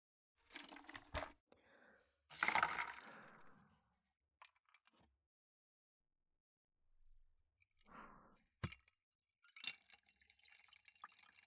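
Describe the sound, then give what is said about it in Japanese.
Ice and liquid tipped out of a chilled glass, then a drink poured in: a few separate splashing, clinking bursts of water against glass, with short quiet gaps between them. “さて、グラスも冷えたでしょうし、氷を捨てて、中に注ぐわね。”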